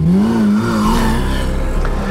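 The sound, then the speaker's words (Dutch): Lamborghini Aventador sports car pulling in to park: a loud, steady engine drone whose pitch wavers slightly throughout, with no talk over it. “Lamborghini Aventador is toch een zeer exclusieve wagen, ja. Ik eh, neem aan dat we eh, ons klaarmaken voor een exclusief gesprek zo dadelijk. Parkeert u maar.”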